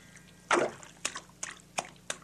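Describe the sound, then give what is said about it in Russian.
Water splashing as someone jumps in and swims: one larger splash, then four short, evenly spaced splashes of swimming strokes, all fairly faint over a quiet background. “Разделся Витька, прыгнул в воду и поплыл.”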